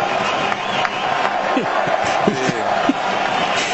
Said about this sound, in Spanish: El público empuja en la tribuna.